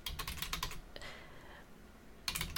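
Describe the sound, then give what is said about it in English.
Typing on a computer keyboard, with quick, light key clicks in bursts at the start and end and a quieter stretch between, fairly soft and with no voices. “can't type and talk at the same time”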